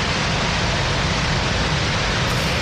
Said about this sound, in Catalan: Així és el so del desembassament del pantà de Susqueda, que es manté també ara al llarg de la nit